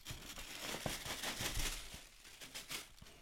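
A paper gift bag crinkles and rustles as it is opened, with many quiet, irregular crackles and crumples that stay faint throughout.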